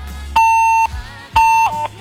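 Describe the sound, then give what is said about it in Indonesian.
A cut-off phone call tone sounds alone and loud: two longer steady mid-high beeps, then a short third beep. “Tut tut tut, sepertinya pulsanya habis atau mungkin baterainya habis nih.”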